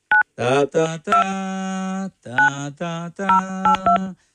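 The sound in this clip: Telephone keypad dialing tones as a call is placed, a series of short beeps alongside harmonic, voice-like tones, in several separate bursts of varied length.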